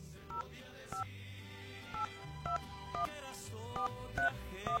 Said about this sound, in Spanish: La persona tiene que contestar la llamada telefónica. Vamos a marcar.